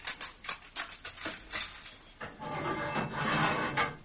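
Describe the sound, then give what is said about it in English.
A prison cell block door opening: a few sharp metallic clanks give way to a sustained rolling, grinding slide that swells and then fades near the end. “open the cell block.”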